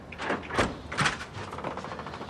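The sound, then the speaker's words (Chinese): A nanny opens a door at her employer's home, making a few soft scraping and rattling bursts spread over about two seconds. “保姆打开了门。”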